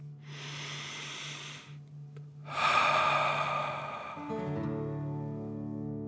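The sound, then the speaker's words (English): Slow breathing during a guided relaxation exercise: one long soft inhale, a short pause, then a longer, louder exhale. A faint steady hum and soft tones sit beneath. “And breathe in and out.”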